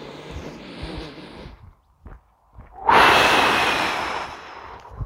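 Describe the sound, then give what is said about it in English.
Deep breathing during a guided relaxation exercise: a softer breathy stretch, a short quiet pause, then a loud, long rushing exhale that slowly fades. “Okay, so deep breath. Ready? And take another one.”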